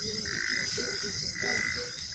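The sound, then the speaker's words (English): Frogs croaking on a hot summer night in Juba, South Sudan, forming a dense, continuous chorus of high trilling calls over pulsing lower croaks, steady and fairly faint, with no voices. “Do you know what that noise was? Yeah, these are frogs.”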